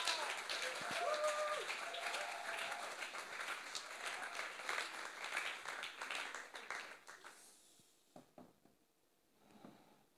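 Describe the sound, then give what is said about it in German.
Welcoming applause from an audience greets a guest arriving on stage: thick, steady clapping for about seven seconds, then it thins out and dies away, leaving a few scattered claps and small knocks. “Gebt ihr einen herzlichen Willkommensapplaus.”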